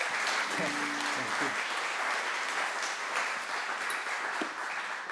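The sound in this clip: Church audience applauds to warmly welcome a speaker coming up front, a dense, steady wash of clapping that holds at an even level throughout, with faint voices briefly audible early on.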